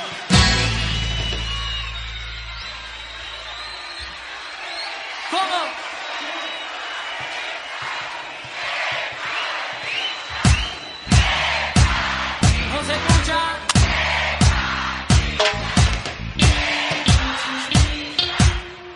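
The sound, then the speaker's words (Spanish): Live crowd applause and cheering at a cumbia villera concert being recorded, a dense wash of clapping for about ten seconds before music with a thumping beat comes in under continued crowd noise. “Fuerte el aplauso, fuerte, fuerte, fuerte, fuerte, fuerte el aplauso. Que se escuchen fuerte, fuerte, fuerte los aplausos.”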